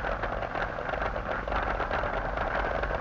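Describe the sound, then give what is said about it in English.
A funny car drag racer's engine sits at the staging lights before a qualifying pass, giving a loud, rough, throbbing roar that holds steady for about three seconds with no other sound. “Just easing up into the staging lights. Should be one of the top runners in the funny car category this weekend. Revs going up.”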